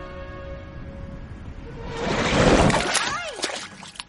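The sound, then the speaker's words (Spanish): Splash of a head dipping into water: a quiet hum swells into a loud, broad slosh midway, then swooping bubbly tones follow and fade out. “Introduce la cabeza en el agua.”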